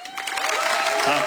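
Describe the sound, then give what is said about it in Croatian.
Applause mixed with some cheering from a music festival audience greeting a debut songwriter, a short, dense burst of clapping that holds steady to the end. “pa ćete mu pljeskat, kako smo se navadili na početke da čovjek misli da je prišao Mišo Kovač, idemo proba, Mišo Kovač, sad!”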